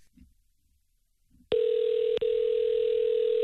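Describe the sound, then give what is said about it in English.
A steady, loud telephone tone from a call being placed begins after a stretch of faint low sounds and holds level, with one very short break partway through. “That would have been really embarrassing if I didn't dial it right.”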